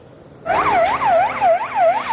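An ambulance siren as the vehicle rushes to the scene of an attack in Afghanistan: a loud wail that sweeps up and down in pitch about three times a second, steady and alone after a quiet start.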